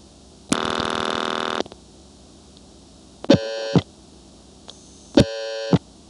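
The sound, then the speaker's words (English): Telephone dialing tones on an exchange line as the number 5599 is dialed: a long buzzy, harmonic-rich tone, then after pauses two shorter similar tones, each opening with a click, heard alone without talk. “I dialed 5599, but what I reached was 4263599.”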